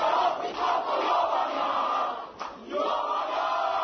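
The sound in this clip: A crowd of relatives and fans at Nikola Tesla airport cheers returning Serbian Olympic champions, the water polo players and a karate gold medallist, in a loud, sustained roar of shouting voices that dips briefly near the end before swelling again.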